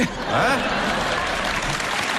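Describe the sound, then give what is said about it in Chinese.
Dense, steady audience applause at a stage performance, with a voice briefly audible near the start and the clapping holding at an even level throughout. “到我们这儿就别鼓掌了， 干嘛？ 留着您打分就完了。”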